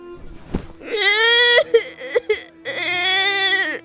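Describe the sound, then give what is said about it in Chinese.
A young boy wails and sobs loudly while clinging to his grandfather's leg, in two long, high, quavering cries broken by short gasping sobs in between. “年轻女子刚要拉着孩子走，孙二抱着老大爷的腿嚎啕大哭。”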